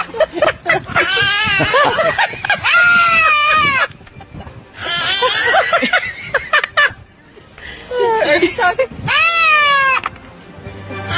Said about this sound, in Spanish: Esa es la bebé, la última es la bebé, siempre empieza la oveja.